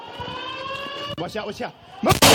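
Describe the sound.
Gunshots in recorded footage of a shooting: sharp, loud bursts at the very end, after a steady electronic alarm-like tone and overlapping voices.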